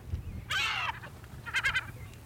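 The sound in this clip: Laughing call of a gull: a faint drawn-out nasal note, then a short run of quick yelping notes, heard alone.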